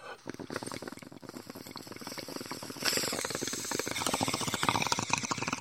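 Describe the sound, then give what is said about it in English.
Someone smoking a bowl of weed makes a dense, steady crackling and bubbling rattle that runs throughout and grows louder partway through, with no voices over it. “And I'm gonna smoke this bowl right here.”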